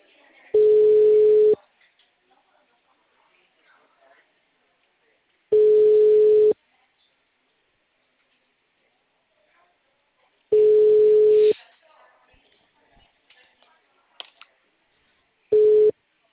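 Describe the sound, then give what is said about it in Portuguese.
Telephone line tones from an auto-dialer call: four steady, mid-pitched tones, each about a second long, repeating about every five seconds. The last tone is cut short, and a few faint clicks fall in the quiet gaps. “Vou ligar pela discadora pra ele. Ele vai me atender?”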